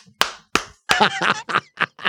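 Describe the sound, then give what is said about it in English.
Sharp hand claps, two crisp isolated smacks, followed by a few short voiced bursts that sound like a person's reactions, with brief silences in between. “What makes you think the clap wasn't a clap of empathy?”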